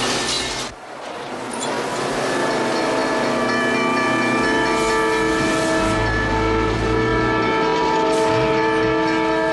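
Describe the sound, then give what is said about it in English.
A train approaches a rail crossing, its horn sounding in long, steady, loud tones over a rumbling, rattling roll of wheels and cars. “He makes a hard left towards a rail crossing and an approaching train.”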